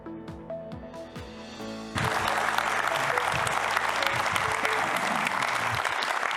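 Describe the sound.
A church audience applauds to welcome a guest speaker: after a brief voice, loud, dense clapping breaks out abruptly and continues evenly to the end.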